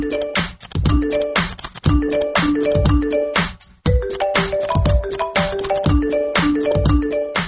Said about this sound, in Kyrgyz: азыркы рингтон ойноп аткан музыка айфондуку экендигин билгендер көп